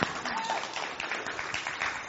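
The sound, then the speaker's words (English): Applause from a church audience greeting a performer as he comes over, a dense, steady wash of many hands clapping at an even level throughout, with no voices standing out. “Y'all just give him a clap off for it as he comes over.”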